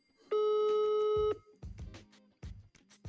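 A telephone call rings out with a single steady, loud electronic ring tone lasting about a second. Quieter, muffled low sounds follow it.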